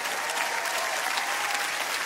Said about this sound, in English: You know why I'm clapping?